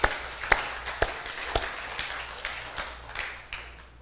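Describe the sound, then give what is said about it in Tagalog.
A church audience claps during a sermon. Sharp claps fall in a regular beat about every half second, gradually fading over four seconds. “Come on, palakpakan po natin si Lord. Come on.”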